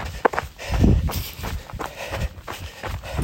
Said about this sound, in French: Je marche les montées plus abruptes.